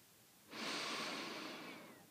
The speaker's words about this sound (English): Yes, breathing in and feeling my forehead. head and my whole head. And breathing out.